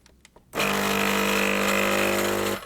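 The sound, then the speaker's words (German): A quiet-running espresso machine with a portafilter brews a double shot from the large basket. Its pump starts abruptly into a steady, even hum, holds for about two seconds, then cuts off. A few faint knocks come before it. “Schön leise auch die Maschine. Auch ein Unterschied zu den anderen Maschinen übrigens. Wir sehen jetzt gleich, wie der Espresso ja auch in verschiedenen Farben da reinläuft.”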